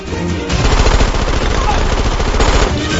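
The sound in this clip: Automatic gunfire from guns during a fight against too many attackers: a loud, dense, continuous rattle of rapid shots that runs almost without a break.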